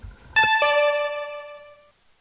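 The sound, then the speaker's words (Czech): An electronic signal tone sounds before a municipal council vote. A bright, steady harmonic beep swells in two quick steps and holds for about a second and a half before fading out. Faint low noise comes before it. “budeme tedy hlasovat po zvukovém signálu”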